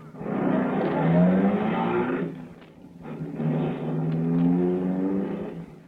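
A car engine roars as the car drives fast and turns a corner. The low, droning motor comes in two sustained surges with a short dip between them.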